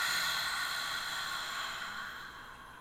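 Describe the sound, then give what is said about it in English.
A slow, deep breath drawn in through the nose and let out again during a guided relaxation exercise, heard as a soft, steady airy rush that gradually fades. “Let's take a nice deep breath in through our nose and out.”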